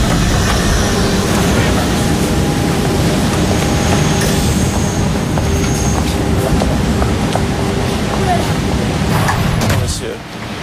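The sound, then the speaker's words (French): A metro train runs through the underground with a loud, continuous rumble and rattle, thin high wheel squeals riding on top, easing off slightly in the final second. “Qu'est-ce que vous voulez enregistrer ? La musique dans le métro ?”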